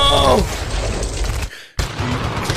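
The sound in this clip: A shotgun gunfire sound effect: noisy rattling gives way to a brief silence, then a sudden sharp blast bursts in loudly and decays into rough noise.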